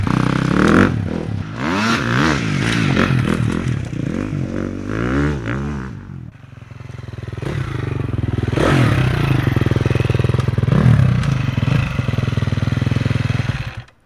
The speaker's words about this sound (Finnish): Ai, se käynnistyy sähköllä, enää ei tarvitse potkasta. Sinne lähti mies.